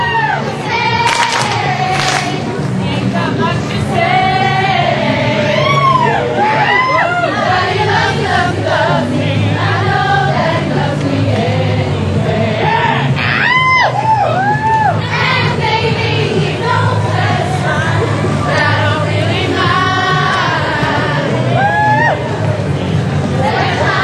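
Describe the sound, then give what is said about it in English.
An audience cheers for a youth theater group of teens from Studio East and the Storybook Theater. Loud whoops and shouts with a dense crowd hubbub keep going without letup for the whole stretch. “Let's welcome these amazing teens and wonderful leaders of tomorrow. Give a hand to Studio East and the Storybook Theater.”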